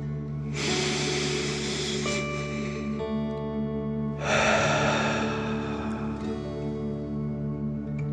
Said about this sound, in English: Last one, fill up your chest and belly. Deep breath in and out.